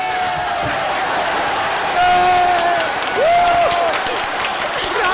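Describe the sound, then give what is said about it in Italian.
Loud audience applause and cheering: a dense, continuous roar of clapping with shouted voices and whoops rising above it, staying intense from start to finish. “92 minuti di applausi! Bravo.”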